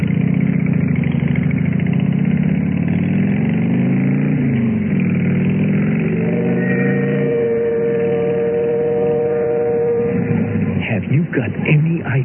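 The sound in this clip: A motorcycle engine runs with a loud, steady low rumble whose pitch wavers, then a sustained whining drone appears as the rider pulls up to a house.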